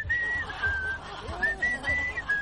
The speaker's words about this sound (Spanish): ¿Podrías silbar nomás, no cantes?